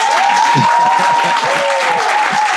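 An audience claps loudly at a live show in Montreal, Canada: dense, steady applause that runs unbroken for the whole clip, with no clear pauses or gaps.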